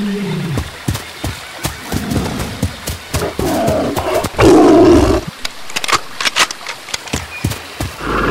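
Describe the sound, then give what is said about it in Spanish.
A tiger roars while attacking a giant tortoise on a riverbank: a loud, sustained roar rises mid-clip, and many sharp knocking impacts and rustling sounds continue around it. “Lejos, a la orilla del río, vio a un tigre atacando a una tortuga gigante.”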